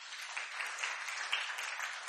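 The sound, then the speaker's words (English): Audience applause for a worship team, a faint, steady wash of many hands clapping together that holds at an even level throughout. “give a big hand clap to the worship team.”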